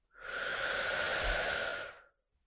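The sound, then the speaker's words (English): One slow, drawn-out breath during a guided relaxation exercise, a smooth, airy hiss that swells gently, holds steady for about two seconds, then fades into silence. “And breathe out. Calm, quiet, peaceful, and open. Breathe in.”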